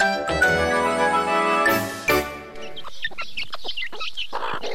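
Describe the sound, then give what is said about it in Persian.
Chickens cluck as a little grain is scattered for them: longer tonal calls at first, then many short, sharp clucks and chirps. “به این مرغا کم دانه انداختم”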